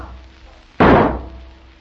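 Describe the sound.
A locked door being crashed open: a single sudden, heavy bang that hits hard and booms, then dies away over about a second against a quiet background.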